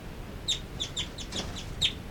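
Brief high chirping calls from two birds in a cell: a few sharp, short notes spaced irregularly over faint background noise, with no talk.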